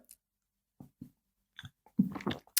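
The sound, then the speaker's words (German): Mouth sounds of someone taking a big sip of a drink: a few soft, separate gulping and swallowing noises, followed by a louder, busier burst of wet mouth sounds near the end. “Gut, ich gebe mir jetzt noch einmal einen grossen Schluck da.”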